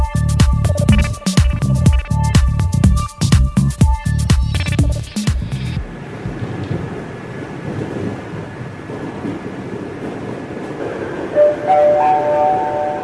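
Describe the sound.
A metro train approaches a station: loud, rhythmic clattering and rumbling for the first few seconds gives way to a softer, steady rolling rumble, and a brief tone rings near the end.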